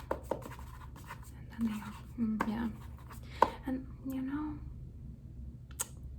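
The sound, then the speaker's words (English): Pen strokes scratching on paper as notes are written down in a close ASMR personal-attention setting: faint, intermittent scribbles and taps under soft whispered speech. “I'm gonna go back to my notes and just, I'm gonna write down how you did.”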